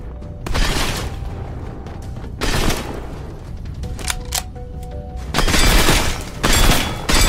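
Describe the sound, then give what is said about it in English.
Gunfire from a video game as a player shoots at targets: loud volleys of synthetic shots in several separate bursts, with short electronic tones sounding in the gaps between them. “Shoot the targets. Firing sequence engaged.”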